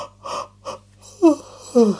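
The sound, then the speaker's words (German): A woman's tired yawn, voiced by a narrator imitating it: soft breathy puffs, then two short moaning tones that slide downward in pitch. “Und wieder gähnt sie.”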